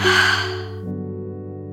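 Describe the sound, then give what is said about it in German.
A deep, audible breath, exhaled like a sigh, during a guided relaxation breathing exercise, soft and breathy at first, then fading into a steady low tonal hum with no talk. “Noch einmal tief einatmen und wieder ausatmen.”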